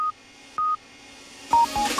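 Short, high-pitched electronic beeps from an Italian radio station's hourly time signal: a few steady pure tones with uneven gaps, the later ones coming closer together over a louder, noisier background.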